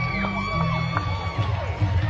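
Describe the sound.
Crowd at a sports match cheering, a steady bed of voices and shouts at moderate level, with a few higher calls and whoops rising above the murmur.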